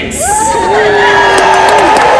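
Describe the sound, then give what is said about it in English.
Crowd cheering at a WonderCon convention panel for a film: a loud, sustained whoop rides over a steady roar of audience noise. “Dana, thank you so much for indulging me, and now keep that applause going, because I'm going to start welcoming our panel today with,”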